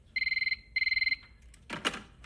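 A telephone rings in two warbling, trilled bursts, followed by a short clattering noise.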